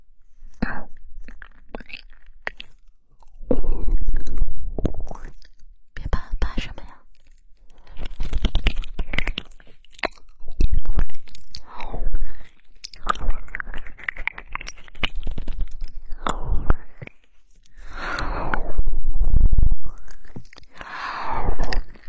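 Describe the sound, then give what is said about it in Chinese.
Chewing while eating an ear: many crunchy, crackly bites in irregular clusters, with soft voices in between. “那就先让我吃一下耳朵，吃完了再小哥，再去唱。”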